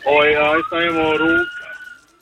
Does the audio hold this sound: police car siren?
yes